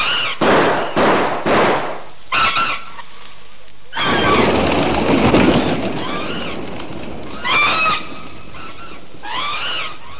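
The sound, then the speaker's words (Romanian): Rifle gunshots: several sharp, loud cracks fired in quick succession, then a stretch of noisy rumble with shrill, piercing cries rising over it. “Ține pușca și încearcă să-i ții la distanță! Am înțeles! Așa, Edward! Trage, Edward! Trage!”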